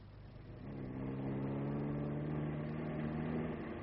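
Car engine as the car is driven fast: a faint, steady low droning rumble that swells after the first second and then holds, with no voices.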